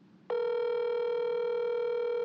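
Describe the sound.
A telephone number-not-in-service tone: after a brief quiet moment, a single steady electronic tone comes in abruptly and holds evenly, clear and fairly loud.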